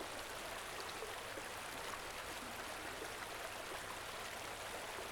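River water flowing in a soft, steady rush. The faint, even hiss continues unbroken, with no distinct splashes.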